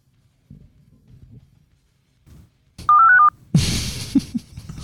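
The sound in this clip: Telephone keypad dialing tone: one short, loud, steady beep after a few faint soft sounds, followed by a burst of broad noise.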